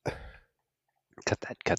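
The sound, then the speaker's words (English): A voice imitates a stabbing sound with a short, breathy, hissing burst, and a brief snippet of talk follows after a pause. “This is my stabbing sound.”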